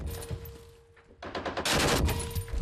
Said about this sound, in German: Weiter schießen. Okay, gut gemacht. Noch eine Salve, dann ist gut.